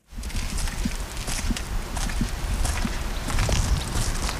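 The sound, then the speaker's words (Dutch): Footsteps walk at an even pace along a 2000-year-old stone border wall between Scotland and England, heard as soft, regular footfalls beneath a constant rushing noise. “Ik loop langs de muur van Hadrianus.”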